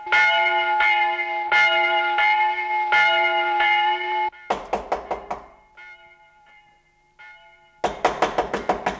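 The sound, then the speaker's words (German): Knocking on a door follows a ringing church bell: a run of about five sharp, loud knocks, then a pause with faint bell tones, then a fast burst of rapid knocks at the end. “Wer ist das, der da klopft?”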